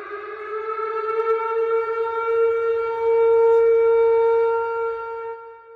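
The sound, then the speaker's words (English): A siren sounds as a warning signal: one loud, steady, rich wailing tone, held at nearly constant pitch, swelling midway and then fading out at the end. “Whatever the sound is, here is the sound of the malpractice warning.”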